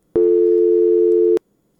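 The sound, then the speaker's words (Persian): Telephone busy signal after a dropped call: a single loud, steady tone lasting just over a second, then silence. “تماس شنونده ما هم قطع شد. فکر کنم کدام مشکل تکنیکی وجود داره.”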